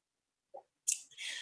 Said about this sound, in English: Also, I have a glass of water I'm going to take a drink of here.